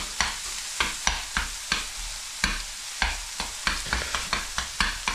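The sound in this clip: Minced meat frying in a pan, with a steady sizzle broken by many sharp scraping strokes as it is stirred, loud and even, with no talk.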